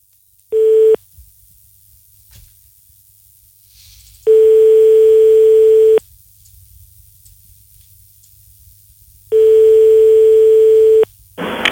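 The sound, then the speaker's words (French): A telephone line tone sounds after dialing a pizzeria's number: a brief steady tone, then two long tones at a single pitch, separated by gaps of quiet line hiss. “Compose le numéro de téléphone de la première pizza qui te vient sous la main. C'est quoi comme pizza, Sabri? Un Chrono Pizza. Ok, on y va, on compose.”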